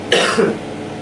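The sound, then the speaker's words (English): A woman gives one brief, soft cough during a medical demonstration, a short breathy burst that fades quickly into quiet background hiss. “Try that little cough, small one.”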